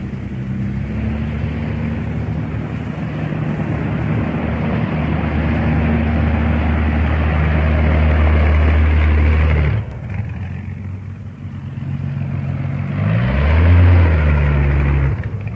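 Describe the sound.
Aircraft engines drone as the machines move up one after another to takeoff: a loud, continuous low rumble with a tonal hum that dips briefly, then swells again near the end.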